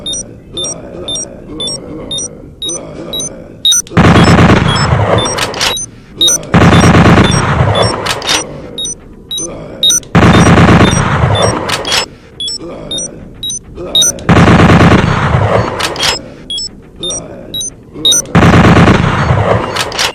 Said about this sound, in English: Automatic bolt. Automatic bolt gun.